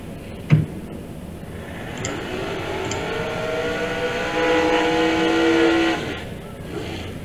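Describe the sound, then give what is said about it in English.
Race car engines roar during a drag race quarter-final. A sharp pop opens, then a steady, loud engine roar with ringing tonal whine builds and swells louder near the end before easing off. “we got the race cut back in, and here we go. We're going to get some noise coming down here.”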